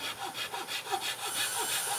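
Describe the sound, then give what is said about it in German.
A Japanese saw with a very thin, finely toothed blade cuts precise cutouts in wood, its quick, even rasping strokes repeating in a steady rhythm at a fairly soft level. “Ich habe jetzt hier eine Japansäge, mit dem ich hier diese Ausschnitte machen werde.”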